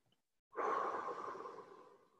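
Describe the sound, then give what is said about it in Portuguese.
A single long, slow breath during a guided breathing exercise, starting abruptly after a short silence, soft and airy, then tapering off gradually. “Solta bem devagar. Inspira mais uma vez.”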